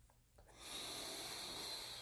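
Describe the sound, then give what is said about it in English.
A single slow breath from a 4-7-8 breathing exercise swells into a soft, steady, airy hiss and holds faint and even to the end. “4, 7, 8 breaths. Just getting me aligned.”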